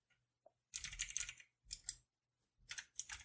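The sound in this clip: Quiet keyboard typing as someone writes a reply to a message, with a few clusters of rapid key clicks separated by short pauses and a couple of isolated taps at the start.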